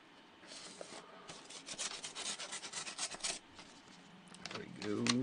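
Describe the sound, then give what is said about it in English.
Rustling and rubbing of a big envelope folded in half as it is handled and opened: scratchy, papery scrapes in quick uneven bursts, growing busier in the middle before settling. “Oh my. That's a big envelope. That's a big envelope folded in half. Oh, there we go.”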